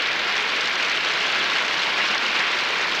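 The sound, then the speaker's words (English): Applause from an orchestra and a concert audience: an even, dense hiss of many hands clapping that holds steady from start to end without distinct individual claps. “Many of them are now adding their applause to that of the audience.”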